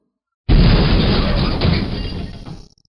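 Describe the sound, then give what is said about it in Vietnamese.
Loud, deep rumbling of a heavy stone door slowly rising, one sustained grinding roar that holds steady for about two seconds, then gradually thins and fades away. “Một trận ầm ầm vang lớn, thạch môn chậm rãi dâng lên.”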